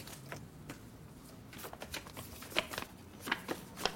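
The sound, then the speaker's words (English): Playing cards flicked quickly by hand make soft, irregular snaps and riffles, faint over a low steady hiss, with a few sharper clicks near the end. “So the fast-moving hands when he's flicking the cards.”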